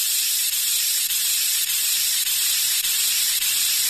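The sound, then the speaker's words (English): A paint sprayer hisses steadily as it sprays white paint onto a tree. The bright, continuous rush stays level throughout, with only slight regular dips. “I'll have this tree sprayed before you can... You're getting more paint on yourself than you are on the tree”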